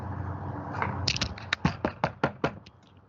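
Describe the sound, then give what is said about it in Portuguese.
Knocking on a door: a rapid series of sharp, hard raps in a quick, fairly even rhythm, heard alone without voices. “É, bater na porta.”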